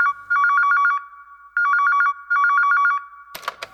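A telephone rings in three bright, warbling electronic trills with short pauses between them, followed by a brief rattling clatter at the end.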